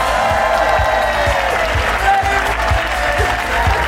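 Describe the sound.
Loud, sustained applause from a live audience welcoming two news hosts onto a stage, a dense, unbroken wash of clapping and crowd noise that holds steady throughout.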